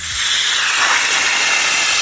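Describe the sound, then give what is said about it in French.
A train brakes as it pulls into a station, giving a loud, steady, broad hiss that holds evenly for about two seconds with no voices. “ça serait un train qui freine, qui arrive en gare”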